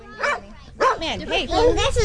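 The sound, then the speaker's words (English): A puppy on a morning walk gives a few short, high-pitched yips and whimpers with wavering, whiny tones, bunched into quick bursts separated by brief pauses. “This is Batman. Oh, Batman is the puppy, huh?”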